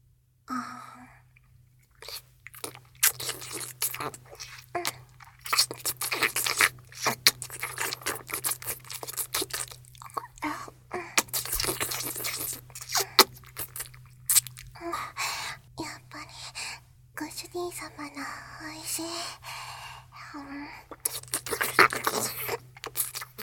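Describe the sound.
Crunchy food being eaten: many sharp bites and chewing crunches at an irregular pace, fairly loud and continuing throughout, with a steady low hum underneath.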